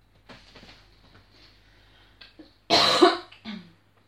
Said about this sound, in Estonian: ma ei saa aru, kust see köha on tulnud siis nüüd.